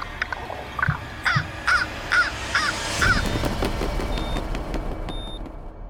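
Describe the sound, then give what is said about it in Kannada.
A crow caws as it flies away, giving a series of harsh, evenly spaced calls. A steady hiss of outdoor noise runs underneath and continues after the calls stop. “ಕಾಗೆ ಹಿಂತಿರುಗಿ ಆ ಯೋಗಿಯನ್ನು ನೋಡುತ್ತಾ ಸಂತೋಷದಿಂದ ಹಾರಿ ಹೋಗುತ್ತದೆ”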